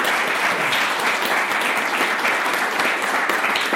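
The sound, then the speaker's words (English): Applause from the audience at DevOps Days Salt Lake City, a steady wash of many hands clapping at an even level throughout. “For everybody in the audience, give yourself a hand for being part of this.”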